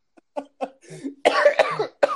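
A person coughs in a series of bursts, starting with short light hacks and building to heavier, rougher coughing fits.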